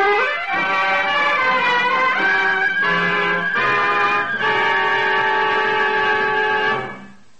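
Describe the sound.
A train horn blows a loud, sustained, chord-like blast for about six seconds before fading, staged as a dramatized effect of an eastbound special passing a local train at Centerville Junction.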